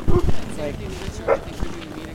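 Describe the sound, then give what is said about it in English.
Nervous sled dogs at a race finish chute, giving a few short, high yips and whimpers under a person talking. “In the finish chute, the dogs start to get nervous”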